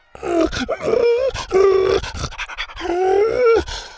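A dog whines in eager anticipation, with several high, tonal whines that waver in pitch and are broken by short breathy grunts and pants.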